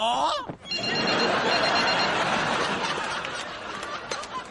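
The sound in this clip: A telephone rings continuously with a bright, jangling electronic bell through a scene from the sitcom Friends, mixed with laughter.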